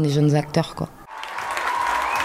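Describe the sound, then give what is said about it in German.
Theatre audience applause and a standing ovation after a performance, a dense, steady patter of clapping that takes over after a second of talk at the start, with a faint sustained tone running through it. “Nach der Vorstellung gibt es Applaus und Standing Ovations.”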